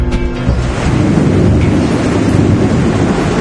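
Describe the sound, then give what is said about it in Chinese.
Heavy rain pours down in a sudden summer storm at the Yungang grottoes, a loud, dense, unbroken roaring wash that stays steady throughout. “这么大的雨好多年没有下过了”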